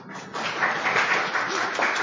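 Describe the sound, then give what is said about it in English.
Audience clapping in encouragement for someone standing up front, a dense, steady patter of many hands that runs through the whole moment without distinct voices. “He can give him a clap.”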